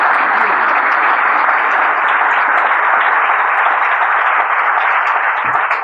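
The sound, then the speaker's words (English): Audience applause for judges at the end of a live event: steady, dense clapping from many people that holds at an even, loud level throughout with no pauses. “And a round of applause for our fantastic judges.”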